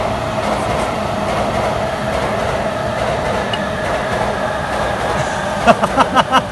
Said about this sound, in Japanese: これあの電車来てる間も喋っても無駄なんで、 これ山手線、 今の山手線